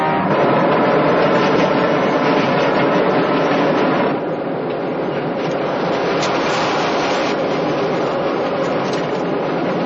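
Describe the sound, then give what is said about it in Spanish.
Subway train running during a chase through its cars: a loud, steady rushing rumble that drops a little in level about halfway, then carries on unbroken. “Mientras, el policía del suburbano persigue a Pierre por todos los vagones.”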